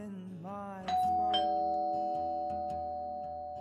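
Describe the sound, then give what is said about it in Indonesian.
A two-note doorbell chime rings out at a gate, the second note following closely on the first. Both tones then hang and slowly fade over a few seconds, with faint sounds just before the bell. “Tinggal pencet bell.”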